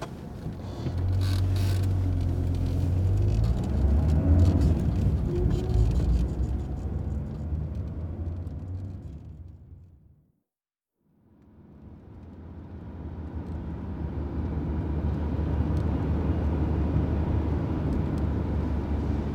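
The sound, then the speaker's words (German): A car drives on the way to a bank, its steady rumbling engine and road noise loud at first, thinning to a brief silence midway, then building back to a constant drone; no voices. “Also bitte, dann fahren wir zur Commerzbank.”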